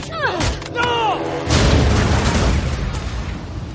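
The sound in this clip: A grenade goes off inside an armoured military truck in an action-film scene: after some brief sweeping higher sounds, a loud, broad roaring blast erupts and trails into sustained rumbling noise.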